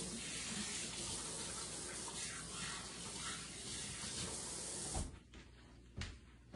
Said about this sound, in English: And wash my hands.